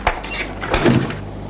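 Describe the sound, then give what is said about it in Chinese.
A door being shut in a busy spot where people keep coming and going: a short knock at the start, then a fuller thud with a brief rattle a moment later, fairly loud, with no talk. “我帮你们关门啊，这里进出的人很多。”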